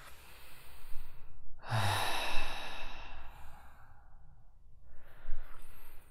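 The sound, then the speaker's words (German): Deep, forceful breathing during a guided cleansing breath exercise: a long, strong breath, then after a pause a softer second one, heard alone and fairly quiet. “Gern noch ein paar Mal, zwei, drei kräftige Atemzüge, so deinen Körper reinigen.”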